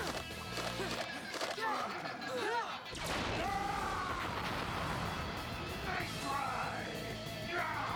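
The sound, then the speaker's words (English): Zeo laser pistols firing as a sound effect, a loud volley of zapping blasts with sweeping electronic tones, dense and continuous for several seconds after a brief lead-in. “Yeah, let's try the Zeo laser pistols.”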